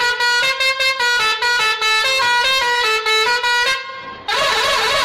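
A car horn sounds a long run of short, bright, loud honks in quick rhythm, then falls silent briefly before a wavering horn tone returns.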